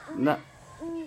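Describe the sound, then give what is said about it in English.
An owl hoot call played from a device: two faint hoots, the first lower with a rough, wavering tone, and the second smoother and more sustained, separated by a short gap. “It doesn't sound like it would play loud enough to get the owls to come.”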